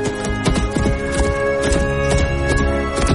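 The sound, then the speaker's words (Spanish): Hoofbeats from a horse being worked in a fenced enclosure form a rapid, steady clip-clop over a constant tonal background. “Adiestra al caballo. Gira, gira.”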